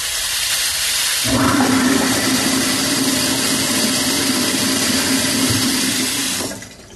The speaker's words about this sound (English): And, of course, the infamous old-school sink and, of course, garbage disposal.